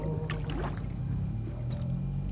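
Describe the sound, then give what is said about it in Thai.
Steady water and hull noise from a traditional Thai wooden plank boat on the Chao Phraya river: a continuous low rumble with some brief, brighter splashing textures early on. “นี่คือเรือโบราณอีกชนิดหนึ่งซึ่งกำลังสูญหายไปจากลุ่มเจ้าพระยาเรียกกันว่าเรือกระดานผีหลอก”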